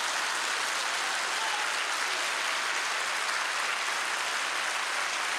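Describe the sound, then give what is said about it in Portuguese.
A church audience applauds during a worship service. The clapping is steady and dense, a continuous wash of many hands that holds at an even level for several seconds, with no talk over it. “Vamos aplaudir o Senhor, o melhor aplauso. Pode aplaudir.”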